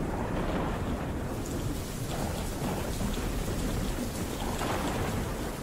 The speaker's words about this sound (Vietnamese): thì ở bên ngoài một tiếng sấm đinh tai nhức óc vang lên. Gió thổi ù ù, hất những hạt mưa va lộp độp vào cửa kính.